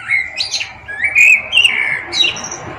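Birds sing outdoors in nature, a few bright chirps and clear whistled phrases following one another in short bursts, loud and alone with no voices.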